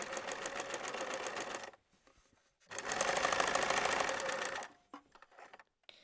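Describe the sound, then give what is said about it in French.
A sewing machine stitching the outer fabric and lining of a fabric mask together along the top and bottom, running in two fast, whirring, rhythmic bursts split by a quiet pause, with faint handling clicks at the end. “Et on, va les coudre ensemble, le haut et le bas, en, laissant les deux côtés ouverts.”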